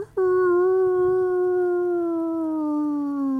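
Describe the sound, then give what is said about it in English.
A hound dog howls in one long, loud, sustained note with strong harmonics, its pitch drifting slowly downward over about three seconds with no other sounds. “finally you're hearing these sounds of hound dogs getting closer. Every once in a while, you hear hound dogs.”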